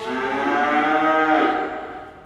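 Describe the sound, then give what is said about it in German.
Calves separated from their mothers bawling: one long, loud, harmonic moo-like cry that holds steady and then fades, with no talk. “Und das, was man jetzt hört, was schreit, das sind Kälber, weil sie abgetrennt sind von den Kühen und irgendwie den Reflex haben, wenn sie eine Kuh sehen, dass sie ihre Mutter vermissen.”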